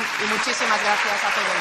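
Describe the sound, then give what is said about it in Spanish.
Applause at the final approval of the amnesty law negotiated by PSOE, Junts and Esquerra: a steady, dense patter of clapping runs throughout beneath a voice speaking. “Este es el sonido de la aprobación definitiva de la ley de amnistía que habían negociado el PSOE, Junts y Esquerra”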